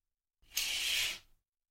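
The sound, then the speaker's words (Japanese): A curtain is pulled open in one quick swish, a soft, airy hiss lasting about a second that rises sharply and then trails off, heard alone. “じゃあカーテン開けるよ。”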